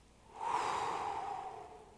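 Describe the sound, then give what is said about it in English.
A single deep inhale during a guided prayer for anxiety. The soft, airy breath swells and fades over about two seconds, quiet and alone. “For when you feel anxious, breathe in.”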